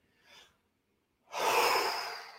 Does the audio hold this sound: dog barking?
no

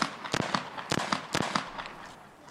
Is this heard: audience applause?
no

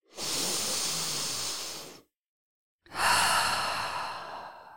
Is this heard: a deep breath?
yes

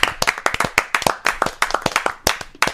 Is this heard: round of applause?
yes

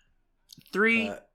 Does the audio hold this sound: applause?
no

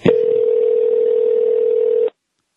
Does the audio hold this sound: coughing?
no

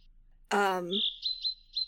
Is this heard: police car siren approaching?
no

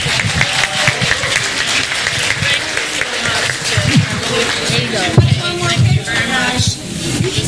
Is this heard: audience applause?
yes

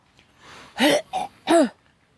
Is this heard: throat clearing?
yes

